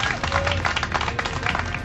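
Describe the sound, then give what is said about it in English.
An audience gives a lively round of applause, brisk and uneven, with individual claps popping out of the dense clatter of hands. “Let's have a serious round of applause here.”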